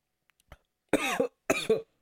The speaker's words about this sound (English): So before I go into a coughing fit, which I feel like coming on,